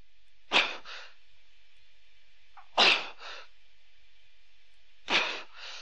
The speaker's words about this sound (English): And here comes the weird breathing.